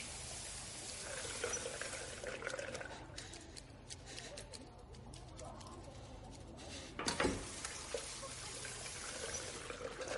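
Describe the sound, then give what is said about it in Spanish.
A tap running in a bar restroom while hands are washed with liquid soap, a soft, steady stream of water with a brief louder gush near the end. “Abre el grifo, coge un poco de jabón líquido y limpia la sangre de sus manos.”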